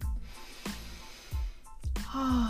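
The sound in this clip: Breaths are drawn in sharply through the nose and mouth, a few quick, snorting inhales spaced apart, with a longer gasping breath near the end.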